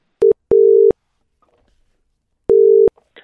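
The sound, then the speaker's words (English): Telephone ringback tone on an outgoing call, a loud, steady, low electronic buzz in three bursts: a short beep, a longer one right after, a pause, then another longer burst. “So we'll, we'll dial him up.”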